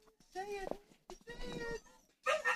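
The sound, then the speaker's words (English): A dog vocalizing: a few drawn-out, tonal whines and whimpers with a bright, howl-like quality, moderately loud, separated by brief pauses. “That's the dog. First time on mic. Good girl.”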